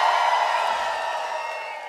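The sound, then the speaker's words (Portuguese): A pagode concert crowd shouts and cheers in a sustained massed yell of many voices, holding steady and slowly tapering off toward the end. “Cadê o grito dos pagodeiros?”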